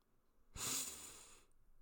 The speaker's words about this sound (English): And let's start with breath. Let's breathe together three times.